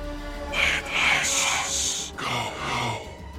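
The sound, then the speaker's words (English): A human voice imitates raspy breathing, producing several rough, breathy rasps in a steady rhythm. Each rasp is hoarse and strained, and the sequence stays at moderate loudness throughout. “you hear a sound in your ears. It just sounds like at first it sounds like raspy breathing”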